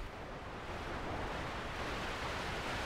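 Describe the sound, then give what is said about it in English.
Quiet outdoor ambience at a wind farm about an hour and a half from Adelaide: a soft, even, continuous rushing like wind noise that stays level throughout, with no voices or distinct events. “I'm at a wind farm about an hour and a half's drive away from Adelaide”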